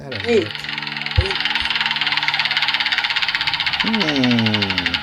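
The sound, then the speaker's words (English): Prize wheel spinning with a rapid, even ratcheting clatter that runs the whole way through, while voices talk and exclaim over it. “I'll spin the wheel and see who is on death row this week.”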